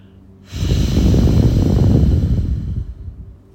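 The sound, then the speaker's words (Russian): A deep, loud breath is drawn in through one nostril, the left, during alternate-nostril breathing: a single long rushing inhale of about three seconds that rises quickly, holds, then gradually fades. “закрыли правую ноздрю и сделали глубокий, громкий вдох через левую. Поменяли пальцы, закрыли левую ноздрю и выдох через правую.”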